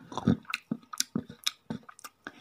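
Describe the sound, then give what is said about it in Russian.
Crunching and chomping as a small dragon devours a kukubus, an inedible failed specimen, in many sharp, uneven bites and wet chews, moderately loud with no talk. “Последние слова были заглушены хрустом и подчавкиванием.”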